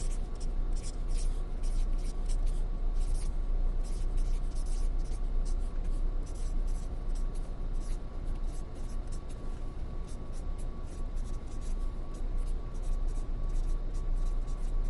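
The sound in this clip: Handwriting strokes scratch continuously for the whole stretch, a steady run of short, rough scrapes over a constant background noise.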